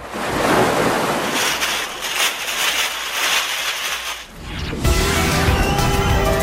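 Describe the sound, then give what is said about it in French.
Ocean waves wash onto a beach in a steady, broad rush of surf with wind-like noise, dipping briefly before surging back loudly. “Je vous propose de retourner sur la plage.”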